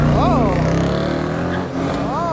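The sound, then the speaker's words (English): Cars drag racing down Putnam Avenue, a city street, make a loud, continuous engine roar with strong harmonic tones that swell and dip, while people talk over it. “They are drag racing down Putnam Avenue.”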